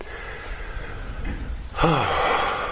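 An audible out-breath during guided breathing meditation, a voiced, sigh-like exhale with falling pitch that starts abruptly after a quiet stretch of soft background hiss.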